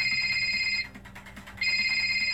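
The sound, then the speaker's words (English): A telephone ringing with a bright electronic trill, two ring bursts separated by a short pause, over a faint low background hum. “The phone continues ringing, causing Sophie”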